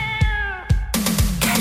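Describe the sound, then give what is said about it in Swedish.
A cat meows loudly, a long drawn-out tonal cry giving way to a harsher, raspier yowl. “Nej, men vi får hit katten nu då. Ja, okej, okay, nu kommer katten. Här kommer den.”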